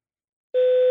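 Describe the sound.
An answering machine beep after a voicemail greeting: a single steady mid-pitched tone, loud and alone, lasting under half a second after brief silence.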